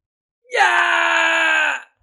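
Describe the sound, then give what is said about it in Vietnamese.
A single drawn-out scream of pain from someone badly wounded in a fight, loud and held at a steady pitch for over a second, then cut off into silence. “Kim Sĩ Tiểu Bằng Vương kêu thảm thiết, cả ruột gan trong cơ thể cũng chảy ra ngoài, máu tươi phun như suối”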